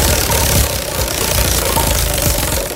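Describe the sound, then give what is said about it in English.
A spinning prize wheel sound effect: loud, dense rattling clicks that run steadily throughout without pause. “Let's spin the wheel. I got my little sound effect too because my wheel's silent.”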